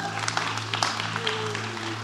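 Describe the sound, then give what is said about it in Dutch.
An audience applauds at a presentation, a dense, steady patter of clapping with a low hum underneath. “Even applaus voor het productieteam.”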